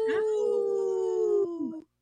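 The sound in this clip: People imitating a wolf howl with their voices: a loud, sustained, steady tone lasting nearly two seconds, with a short upward swoop at the start and a falling tail as it fades out.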